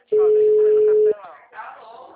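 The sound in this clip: Ringback tone on an outgoing phone call: one steady, mid-pitched tone lasting about a second, then a voice begins talking.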